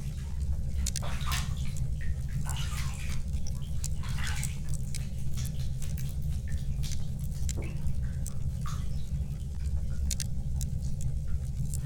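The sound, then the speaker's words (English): Bathwater sloshing and trickling as hair is wetted before lathering, a steady, dense wash of watery noise with scattered drips and small splashes throughout, and no voices. “Well, wet your hair, Your Grace, and then I shall lather it.”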